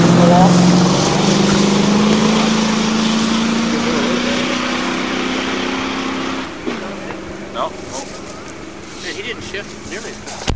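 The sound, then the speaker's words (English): A Ford engine runs with a steady, fairly loud droning hum whose pitch creeps gradually upward, then drops abruptly about two-thirds through and settles into a quieter, rougher idle. “That sounds like the Ford. That sounds like the Ford. Or the Ford.”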